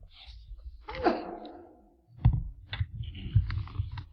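A single sneeze breaks into a lesson as a sharp, breathy burst with a short trailing tail. It is followed by a few soft knocks and rustling noises, and the whole sequence is fairly quiet.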